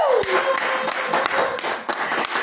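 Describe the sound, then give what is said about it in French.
A French-speaking church audience claps and cheers with shouts of joy in loud, dense bursts of applause that carry on throughout. “Donc s'il t'a fait du bien, acclame-le encore avec des cris de joie.”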